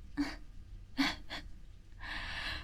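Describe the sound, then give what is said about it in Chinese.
Nervous gasping from breathing too fast, heard as a few short, sharp intakes of breath followed by a longer, breathy exhale, fairly quiet and with no talking. “我就是太紧张了，然后呼吸太快就呛到”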